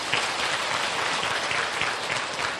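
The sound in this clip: Audience applause at a Buddhist gathering in honor of a Vietnamese singer: dense, steady clapping from many hands that stays loud and even throughout, with no talk over it.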